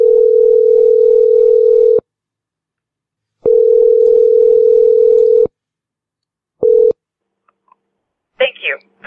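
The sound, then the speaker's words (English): Telephone tone sounds while a call is being dialed to a hire-a-witch line: a steady, loud, mid-pitched tone in two long bursts of about two seconds each, then a short third burst, and a voice begins at the end. “We're about to dial up a real live witch to break the Mizzou curse.”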